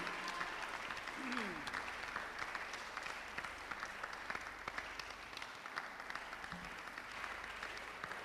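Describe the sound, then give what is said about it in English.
Audience applause at a church gathering welcomes a woman onto the stage: faint, steady clapping from many hands that continues evenly throughout without a clear peak. “let's put our hands together and let's welcome upstage my wife, Honam”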